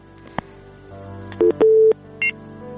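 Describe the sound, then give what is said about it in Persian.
Telephone keypad tones as a new call is dialed for a call-in line, a short click followed by three two-note tones of uneven length, the middle one longest, over a faint steady hum. “تماسی ناقد شد، بازم یک تماس دیگه را میگیریم.”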